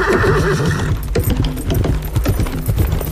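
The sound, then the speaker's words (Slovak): A horse whinnies with a high, wavering call, then rapid hoofbeats of galloping horses follow, fast, loud and even in rhythm until the end. “Cválali dňom i nocou, pralesom i pampou, až prišli do tmavého lesa.”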